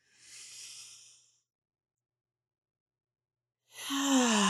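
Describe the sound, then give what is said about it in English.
A deep breath drawn in through the nose during a guided breathing exercise: a soft, airy rush lasting about a second, then silence, then a louder voiced, sigh-like sound starting near the end. “So we're going to inhale and we're going to hold for a few counts and then we're going to exhale. And here we go. In through the nose.”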